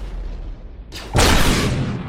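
A loud gunshot, one heavy blast that rises suddenly out of quieter background noise and trails off in a long, rumbling decay.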